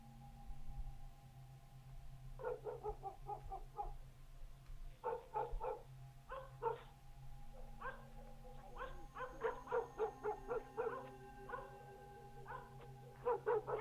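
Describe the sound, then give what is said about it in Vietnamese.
A yellow dog barks outside in bursts of rapid, sharp yips, clustered into many short runs. The barks are fairly faint and sit over a low, steady hum, with no talk. “Ở bên ngoài, tiếng con chó vàng lại cắn nhấm nha nhấm nhặng.”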